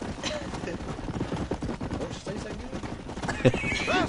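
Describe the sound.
A horse whinnies near the end in a video game, preceded by rapid clip-clopping hoofbeats and busy background game sounds.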